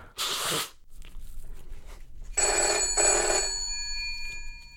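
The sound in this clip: A telephone rings, preceded by a short noisy burst: the ring is a sustained bell-like tone with steady high overtones, moderately loud, and no talk.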